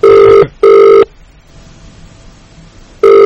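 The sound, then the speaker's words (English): Ringback tone of an outgoing phone call: two short, loud, steady tone bursts close together, a longer silent pause, then a third burst starting at the end. “That's really weird. It's not going to voicemail. It was going to voicemail when I was calling it from my Vonage phone.”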